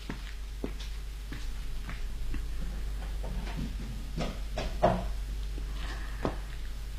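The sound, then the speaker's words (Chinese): A window is opened with a series of light wooden clicks and knocks spread across several seconds over a low steady hum, with a couple of sharper bumps near the end. “把窗户打开。 哦，好， 让风吹进来吧。”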